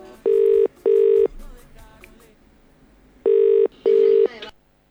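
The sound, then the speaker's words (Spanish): Ringing tone of an international phone call to England: two loud double rings, each a pair of short steady tones, with a quiet stretch of faint background noise between them. “Vamos llamando. Estamos llamando a Inglaterra.”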